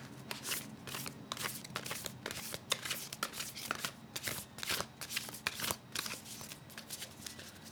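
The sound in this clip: A brand new deck of cards is shuffled in many quick, crisp riffling and snapping bursts with an uneven rhythm. The sound is fairly quiet and no one speaks.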